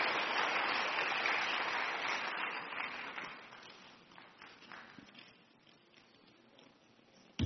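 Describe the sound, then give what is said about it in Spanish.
A church audience applauds, with dense, loud clapping at first that gradually thins into scattered claps and fades to near quiet over several seconds. “Denle un aplauso al Señor Jesús, hermano.”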